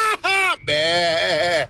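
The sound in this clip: A human voice imitates a goat bleating, giving a short nasal bleat followed by a longer, quavering one, both loud and strongly voiced.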